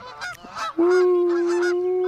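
Geese honking: a few short, harsh honks, then one loud, long, steady nasal honk held to the end with no talking.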